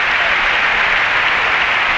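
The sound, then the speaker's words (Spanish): A stadium crowd at the Barcelona Olympic closing ceremony in the Estadi Olímpic applauding: a loud, even roar of dense clapping that holds steady without a break. “Aplaudiments en aquests mateixos moments, quan passen 13 minuts de les 11 del vespre”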